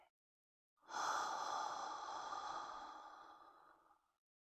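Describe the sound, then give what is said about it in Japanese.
A single slow, long breath out during a guided breathing exercise, a soft airy rush lasting about three seconds that gradually tapers away, heard alone. “ゆっくり吸って、ゆっくり吐いて、”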